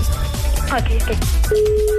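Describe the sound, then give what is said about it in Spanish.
Telephone ringback tone as a prank call is dialed, a steady, mid-pitched single tone that begins after a voice speaks and holds to the end. “Ok, te estoy marcando en este momento, ¿ok?”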